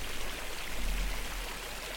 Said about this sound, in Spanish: observarías que la lluvia va un poco más rápido. y es más constante.